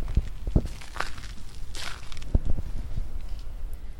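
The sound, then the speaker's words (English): Footsteps crunch over crushed stone in a park at Golden Gate Park, with a few uneven, gritty steps over faint background ambience. “You might even hear me walk in some crushed stone.”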